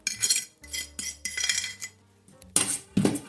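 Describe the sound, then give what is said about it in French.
Butter is scraped from a mixing bowl with a plastic scraper, going into seaweed: a series of short scraping strokes and clinks against the bowl, with brief pauses between them. “Toujours avec ma corne, ma meilleure alliée, je racle le plus possible tout mon beurre pour le mettre dans mes algues.”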